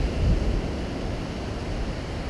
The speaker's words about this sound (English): I'm not sure if this is recording very well because I got a wonderful background of the ocean.